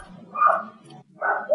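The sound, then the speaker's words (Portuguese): A dog barks loudly in the background: a few harsh barks come in two bursts with a short gap between them, without anyone talking. “Peraí, tem um cachorro latindo foda atrás. Ele tá latindo foda.”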